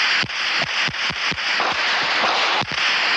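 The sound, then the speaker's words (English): Sporadic gunfire during the MOVE standoff in Philadelphia: several sharp, cracking reports at irregular intervals over a steady bed of broad hiss. “The sporadic fire lasted for about an hour and 20 minutes.”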